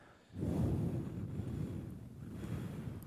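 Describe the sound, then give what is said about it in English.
A person imitates wind noise with their voice, making a steady, breathy, rushing whoosh that swells and sustains. “let us know at HitCQ on Instagram, who had the best wind noise? We'll take a little vote.”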